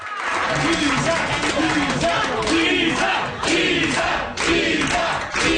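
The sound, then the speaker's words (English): Election-night supporters of a Parti Québécois candidate in Quebec's Papineau riding chant her short name over and over, a loud rhythmic crowd chant with steady repeating beats over background cheering. “That's the sound of Isabelle Miette's delighted supporters chanting Isa, Isa.”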